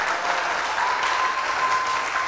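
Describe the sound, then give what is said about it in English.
An audience at a church service claps steadily, a dense, even wash of many hands that holds its level without a break from start to finish. “Come on, clap. Let's show your long clap.”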